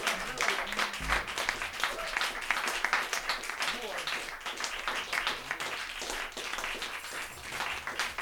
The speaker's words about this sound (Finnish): Antakaa nyt aplodit täällä.